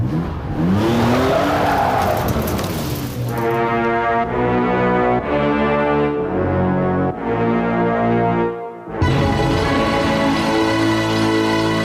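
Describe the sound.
A car pulls away at full throttle with an opening squeal of tires, then a loud engine roar climbing through several gear changes. The sound dips briefly near the end before the roar resumes.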